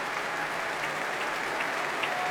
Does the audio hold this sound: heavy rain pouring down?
no